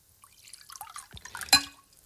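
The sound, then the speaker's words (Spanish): Water from a small jug of Madrid tap water: a few faint liquid drips and splashes, with a low thud midway and one sharper, louder splash near the end, and no talk. “yo ahora me voy a poner, mira, aquí tengo una jarrita de agua.”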